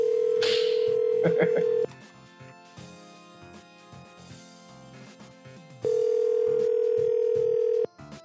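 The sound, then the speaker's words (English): A telephone dial tone and keypad dialing tones start a prank call: a steady tone sounds for about two seconds with short beeps, then a quieter stretch follows before a second steady tone returns for about two seconds. “Hold on. I'm going to do a time travel related complainer prank call here.”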